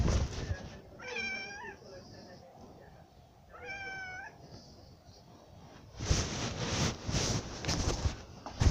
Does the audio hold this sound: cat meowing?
yes

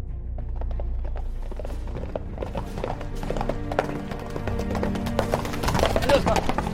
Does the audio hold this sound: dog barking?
no

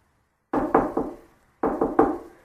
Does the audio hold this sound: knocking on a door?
yes

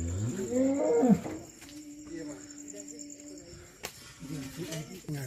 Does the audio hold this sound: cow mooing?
yes

